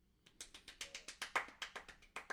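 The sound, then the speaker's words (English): Faint hand clapping from one person: a quick, evenly spaced run of many sharp claps that starts after a short quiet moment and keeps a steady rhythm to the end. “I don't know if that picked up. Barely. Oh, no. I tried clapping.”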